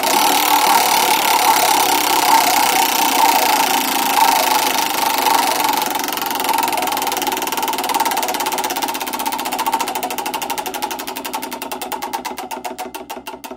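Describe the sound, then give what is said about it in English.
A prize wheel spins with a rapid, continuous stream of ratcheting clicks that gradually slow and spread apart toward the end, standing alone without voices. “And just like this, let's spin the wheel of reviews.”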